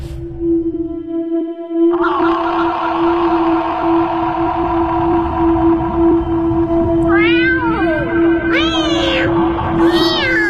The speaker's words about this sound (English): Thrice the winded cat hath mewed